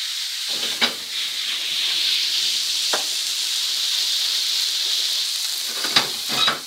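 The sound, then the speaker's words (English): Havana rum is flambéed in a pan on a burner, making a steady, bright sizzling hiss broken by a few sharp crackles. “I'll turn the burner back on here, give myself a little, give myself a little room. And we're gonna flambe this. So I'm gonna give this a shot of rum.”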